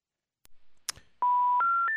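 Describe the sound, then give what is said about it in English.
Telephone dialing tones: a couple of soft clicks, then three steady beeps in quick succession, each one stepping higher in pitch. “Nope, apparently. I didn't dial properly. So let me do this one more time.”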